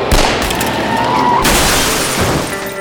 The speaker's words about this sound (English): If you think I was good with a shotgun, you should see what I can do with this Magnum revolver. 6 shots, 3 head, 3 heart.